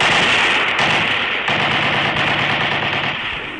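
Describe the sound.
A heavy machine gun fires on an enemy firing position in battle, producing continuous, dense, loud rattling that holds steady throughout with no pauses.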